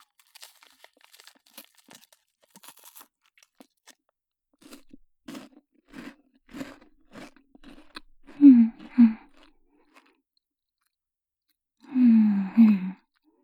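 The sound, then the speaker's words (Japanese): Crunchy chewing of food in a quiet setting: scattered soft clicks and bites at first, then louder crunching bursts near the end, heard alone without talk. “こぼさないように蓋を閉めて、じゃあちょっと食べてみたいと思います。いただきます。”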